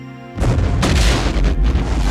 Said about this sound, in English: Suddenly, it exploded with tremendous force.